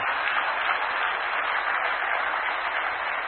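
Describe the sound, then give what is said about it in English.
Congregation clapping hands during a church service, a dense, steady wash of many hands clapping together, continuous and fairly loud throughout with no pauses. “Are you clapping for Jesus? Come on, make it louder and bigger and better. Clap your hands, oh ye”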